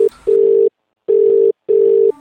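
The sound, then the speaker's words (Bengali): A landline telephone tone sounds while numbers from a phone directory are being called: a steady, loud, mid-pitched tone comes in a few long bursts separated by short silences, with no voices. “তুমি কি যতগুলো পাকরাশি আজ ডিরেক্টরিতে সবকটাতে phone করবে নাকি পঁচিশের মধ্যে দশ জন তো হয়ে গেল দেখা যাক”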